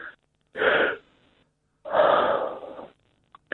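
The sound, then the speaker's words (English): A deep breath drawn in and then blown out, two separate breathy rushes: a shorter inhale, a pause, then a longer, fuller exhale that tails off, followed by a couple of faint clicks. No one talks. “In, take a deep breath in. Don't just blow it out. Then blow it out.”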